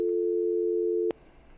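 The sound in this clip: Telephone line tone heard while a call connects: a single steady, mid-pitched tone, loud and unbroken for about a second, then cut off by a click, leaving faint hiss.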